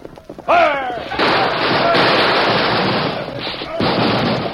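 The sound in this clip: Gunfire sound effect in a Western radio drama battle. A shouted voice at the start gives way to a dense, continuous, loud barrage of shots and crackling noise that runs to the end.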